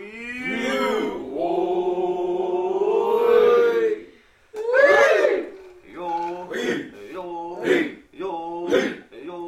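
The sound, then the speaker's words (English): Traditional Natchez Nation song sung at the annual powwow at the Grand Village in Natchez: a long, loud sustained vocal tone, then several shorter sung phrases with brief breaks between them. “We're listening to a traditional song from the Na'Chi Nation, which I recorded at the annual powwow held at the Grand Village in Natchez,”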